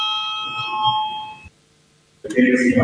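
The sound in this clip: The chairman's electric bell rings before a vote in the Latvian parliament, a single sustained, bright tone lasting about a second and a half. A short silence follows, then voices in the chamber.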